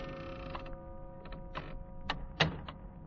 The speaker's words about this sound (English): It was long after midnight when my office door slowly opened.